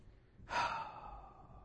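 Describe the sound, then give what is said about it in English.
A cleansing breath comes out as one long, sighing exhale. It starts suddenly and fairly loud, then slowly fades as the air runs out. No other sound accompanies it. “It's a cleansing breath.”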